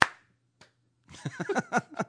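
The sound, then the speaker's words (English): A single lone clap lands as a sharp, isolated smack at the very start, then after a short pause voices follow. “For 10 years we've been doing that. The lone clap.”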